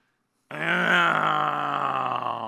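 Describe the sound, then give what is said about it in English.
A human voice imitating a groan: one long, drawn-out voiced moan that bursts in after silence and stays loud and sustained for about two seconds before trailing off. “And you know what groaning sounds like, don't you?”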